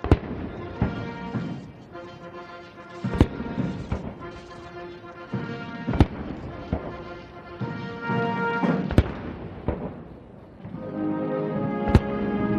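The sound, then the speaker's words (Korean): Cannon booms of a 21-gun salute at an official White House welcome ceremony for a state visit ring out as sharp, loud blasts about every three seconds over a sustained tonal background. “약 27분간 진행된 행사는 양국 국가 연주와 21발의 예포 발사, 미국 6회 공군과 해병대 의장대 사열 등의 순서로 진행됐습니다.”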